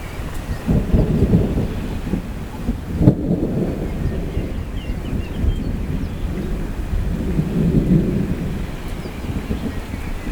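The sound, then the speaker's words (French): Thunder rumbling from an approaching thunderstorm over a mountain massif, a continuous low rolling roar that swells and fades, with one brief sharper crack, rain and wind noise underneath. “L'orage que je vous annonçais”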